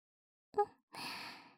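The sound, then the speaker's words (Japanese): Soft breathy blowing into a listener's ear: a short puff, then a longer, steady, gentle exhale of airy hiss, with no talk. “まずはお耳をふうふうしていきます。”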